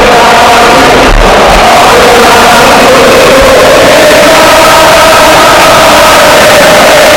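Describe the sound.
A stadium crowd singing Real Sociedad's club anthem at Anoeta during a football match, a loud, dense wall of massed voices carrying a sustained sung tone throughout.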